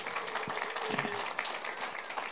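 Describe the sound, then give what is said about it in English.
Applause from a church audience welcoming a new member: dense, steady clapping that holds at an even level throughout. “Let's give him a hand, eh?”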